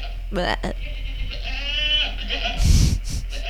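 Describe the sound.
Sheep bleating at a zoo where animals stand in wet mud: a wavering, nasal bleat rises out of the scene while people talk over and around it.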